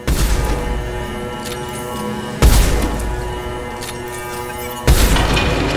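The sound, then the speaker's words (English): Three heavy booming sniper rifle shots in a video game, evenly spaced, each striking loud and broad before fading into a lingering rumble. “So let's pull out the sniper rifle. It says health, so I'm just gonna sniper shot it.”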